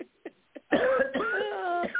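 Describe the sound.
Coughing during heavy pollen season: a few short, faint coughs, then a longer hoarse, voiced cough that carries on for over a second.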